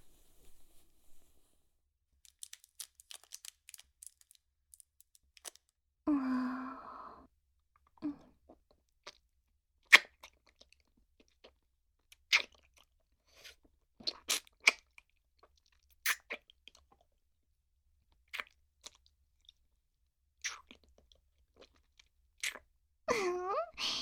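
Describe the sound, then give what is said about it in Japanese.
Someone eats a hard candy: sparse, sharp clicks and small crunchy taps spread over a very quiet background, with a brief rustling burst partway through. “自分へのご褒美に飴舐めちゃおうっと。”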